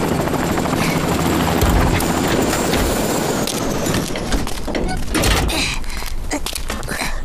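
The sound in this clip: A small aircraft's engine roars loudly and steadily as it comes in to land. The dense, rough drone has a rotor-like flutter and holds at a constant level throughout.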